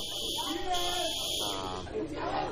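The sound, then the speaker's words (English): A fire alarm going off, probably a false alarm: a steady, high-pitched buzzing tone that runs without a break at low level beneath people talking. “fire thing, fire alarm, and this is gone off.”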